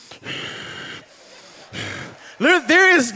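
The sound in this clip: A voice imitates the labored breathing of a child with a breathing problem: a few raspy, noisy breaths, then harsh voiced wheezing gasps that grow louder at the end.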